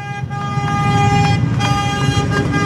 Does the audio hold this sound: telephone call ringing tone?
no